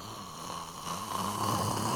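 A man imitates loud snoring with a constricted windpipe, making a faint, drawn-out, rasping breath that swells slightly and continues without a pause.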